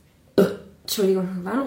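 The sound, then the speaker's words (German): A woman burps: a short abrupt burst, then after a brief pause a longer, low, croaky belch with a wavering voiced tone. “aber wenn eine Frau rülpst, dann ist das nicht mehr, dann ist das zu real, ne?”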